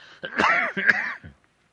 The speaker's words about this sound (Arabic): معلش أنا يعني جو القاهرة يبدو فيه أتربة وكذا، يعني أستميحكم عذرا في كثرة السعال.